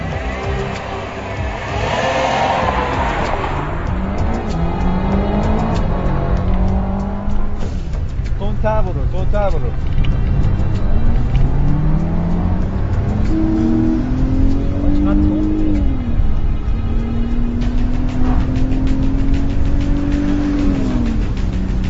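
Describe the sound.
A car engine starts and accelerates hard as the car drives off in pursuit of a man. It revs through repeated rising sweeps with gear changes, loud and continuous, and voices are heard over the motor.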